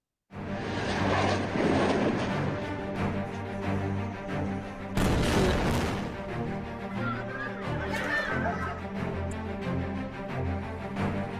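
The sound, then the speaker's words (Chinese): Continuous heavy roar of rockets launched from Palestinian territory on 7 October 2023, with loud droning noise and tonal whine that holds steady for the whole stretch and swells in a brief louder burst midway. “2023年10月7号呢，巴勒斯坦向他们发了整千枚的这个炸弹哈，所以我们可以看一下哈。”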